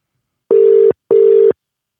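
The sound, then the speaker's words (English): Ringback tone of an outgoing telephone call: two steady, mid-pitched tone bursts, each about half a second long, separated by a short pause. No voices are present. “Can everyone hear? Yeah. It's dialing, right?”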